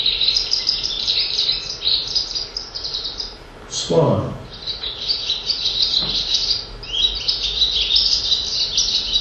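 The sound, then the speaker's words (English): Swallow song, a fast, high twittering warble that runs almost continuously, broken by a brief pause midway before resuming just as busily. “Swallow. It's a very familiar sound, really, but you don't always take it on board. Swallow has such a complex song as that. It's just quite a distinctive sound.”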